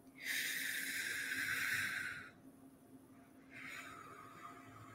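Slow, deep belly breathing: a long airy inhale of about two seconds, a short pause, then a softer hissing exhale, quiet and heard alone.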